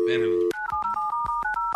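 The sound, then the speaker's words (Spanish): A telephone number is being dialed on a keypad: a quick run of short electronic tones that step between pitches, each separated by a tiny gap. “A ver, déjale, marco otra vez. Aquí salió su caller ID.”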